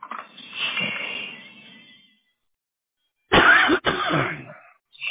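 Coughing and throat clearing from a person with a throat tickle blamed on post-nasal drip: a rasping, drawn-out stretch first, then a few sharp, loud cough bursts after a pause.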